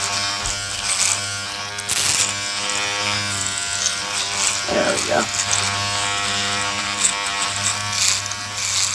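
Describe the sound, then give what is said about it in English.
An electric razor buzzes steadily in a comedy film scene in which a married man shaves another man's testicles. Its continuous droning hum runs beneath people talking. “The fact that you're letting a straight, married man shave your testicles, I think that makes you one of the most macho guys alive.”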